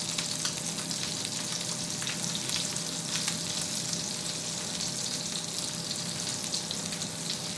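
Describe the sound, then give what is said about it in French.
Food frying and roasting in a pan gives a dense, steady sizzle with fine crackles and pops, fairly soft and unbroken throughout, with no voices. “J'entends par les bruits de la cuisson, j'entends bien quand ça commence à rôtir.”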